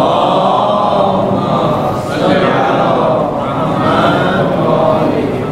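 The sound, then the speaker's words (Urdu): Many voices of an audience recite salawat aloud together at a Ramadan prayer gathering, forming a dense, continuous murmur of chanting that holds steady throughout. “دعاؤں کی قبولیت کے لیے بآواز بلند صلوات پڑھیے گا”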